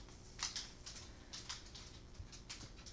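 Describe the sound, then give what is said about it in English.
A dog's recently trimmed nails click on the floor as she walks in: faint, light, irregular taps in quick succession. “Here comes a dog. I'm so sorry for the click-clacking. She did get her nails trimmed recently, so it's not nearly as bad, but you can still hear it.”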